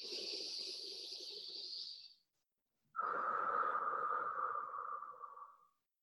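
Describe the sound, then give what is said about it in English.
Deep breaths taken during a guided relaxation exercise: two long, steady airy hisses, each lasting over two seconds, soft and alone, with a short silent gap between them. “let's expand even more. Deep breath in.”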